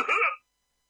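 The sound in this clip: A man coughs once, a short harsh burst of about a third of a second, then silence.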